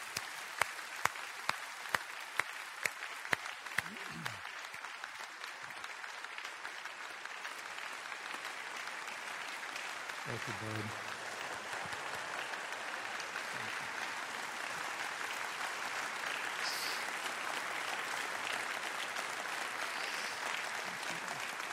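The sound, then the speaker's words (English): Audience applause welcomes a speaker to the platform at an Abundant Life gathering. It opens with a few separate claps, then swells into dense, steady clapping that holds at an even level to the end. “Would you give Wes Stafford your biggest, biggest welcome ever?”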